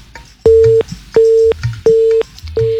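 Telephone busy tone after a caller's line disconnects: loud, steady beeps at a single pitch, about four of them, repeating in an even on-off rhythm with short gaps.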